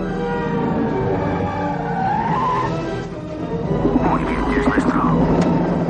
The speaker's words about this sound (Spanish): Kimball frena y para en mitad del túnel.